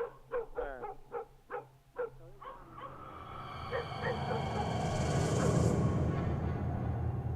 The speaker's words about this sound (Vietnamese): Thế nhưng con chó vẫn cứ sủa nhấm nha nhấm nhạc.